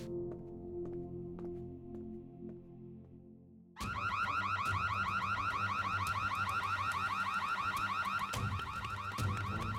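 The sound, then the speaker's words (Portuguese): A backup alarm blares on suddenly after a quieter stretch, a loud electronic wail of rapidly repeating warbling tones that keeps sounding steadily to the end. “Pensei que você fosse cuidar do alarme. Deve ser um alarme reserva, se pegarem a gente.”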